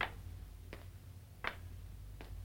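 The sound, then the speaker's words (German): Knocking in a German radio play: four soft, evenly spaced taps over a low steady hum, quiet and regular like a slow tick. “Wer klopft da? Da klopft doch einer.”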